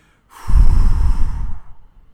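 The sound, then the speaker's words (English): A long, forceful exhale pushing all the air out of the lungs while bending forward, a breathy rush that starts abruptly, stays strong for about a second and then tapers off. “I do that by bending over slightly and pushing all my air out as though I'm doing a sit-up.”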